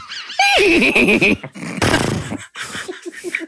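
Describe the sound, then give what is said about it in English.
A horse whinnies in a video game as a trusty steed is called: a loud, wavering, high-pitched neigh that drops in pitch, followed by rougher, noisier bursts. “I need to call my trusty steed Horsey”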